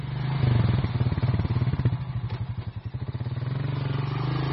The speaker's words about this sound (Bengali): চটপট রেডি হয়ে অয়নের বাইকের পিছনে সিটে চেপে বেরিয়ে পড়লাম।